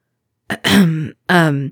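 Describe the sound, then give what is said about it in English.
Someone clears their throat with a short catch followed by two voiced, guttural rasps, separated by a brief pause. “He winced when Remus cleared his throat.”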